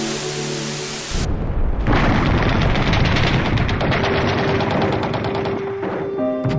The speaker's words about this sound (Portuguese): O canal televisivo mostra bombas explodindo, mísseis sendo lançados e centenas de corpos pelo chão.